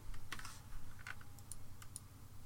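Typing on a computer keyboard: a few faint, scattered keystroke clicks at an uneven pace over a low, steady hum.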